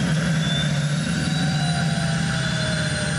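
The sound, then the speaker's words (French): Turbine whine from an unusual car under acceleration: a steady high-pitched whistle rides over a dense, continuous roar that holds at an even loudness throughout. “Oh là là, quand j'accélère, j'entends la turbine qui se met en route.”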